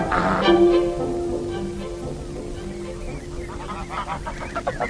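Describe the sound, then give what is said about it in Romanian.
A flock of wild geese honks near farm fields on Gotland, with a sustained nasal call early on followed by repeated short honks that grow busier toward the end. “lângă țarinele din Gotland, aproape de aici, este un cârt de gâște sălbatice.”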